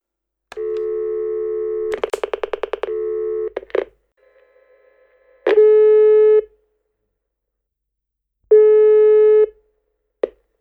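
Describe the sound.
Telephone line tones as a call is placed: a steady tone interrupted by a burst of rapid pulsed beeps, then two long, even ringing tones separated by silence, ending with a short blip.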